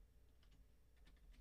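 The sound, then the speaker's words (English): Soft typing on a computer keyboard: a quick, uneven run of faint key clicks over a low, steady hum. “let me type in NFC playoff picture.”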